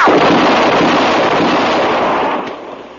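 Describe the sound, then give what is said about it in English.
Loud rifle gunfire during a fight around a wagon, a dense, roaring blast of sound holding steady for most of three seconds before fading toward the end. “You got him. You know how to use a rifle.”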